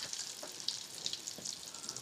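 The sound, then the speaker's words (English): Eggs sizzle in a pan as an omelet gets started, a soft, steady crackle of frying dotted with small scattered pops, faint and with no voices. “All right, so the eggs are gonna go in now.”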